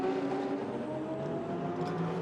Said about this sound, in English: Alex, all four Michelin tyres over the curb, so he must have been a gnat's whisker away from the inside wall.